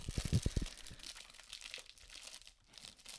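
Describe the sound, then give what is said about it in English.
Crinkling and tearing of a keyboard's packaging being pulled open by hand without scissors: a quick burst of sharp, crackly crunches at the start, then softer, continuous rustling. “He's struggling so hard to open the damn keyboard right now. You don't have scissors, so it's not fun.”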